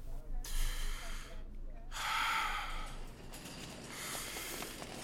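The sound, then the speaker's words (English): Deep breaths drawn during a medical examination of the heart and lungs, heard as three long, airy breathing sounds separated by short pauses over a low steady hum. “Now, stay still and take a few deep breaths.”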